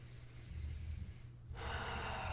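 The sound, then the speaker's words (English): Breathing during a breathwork meditation: one long, airy breath that turns louder and brighter about halfway through, over a low steady hum. “And breathe.”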